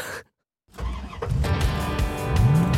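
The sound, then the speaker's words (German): A small car packed with four passengers accelerates: after a brief silence, the engine noise swells into a loud, rough roar that builds steadily, with a rising whine near the end. “Du rufst, gib Gas, gib Gas! Du heißt Perrine und bist eine von vier Französinnen, die sich gerade in ein kleines Auto gequetscht haben.”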